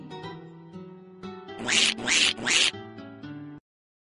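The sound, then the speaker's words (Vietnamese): A duckling quacks three times in quick succession, each quack loud and harsh. Soft sustained tones play before and under the quacks, and everything stops abruptly soon after. “À, chú vịt con đẹp quá.”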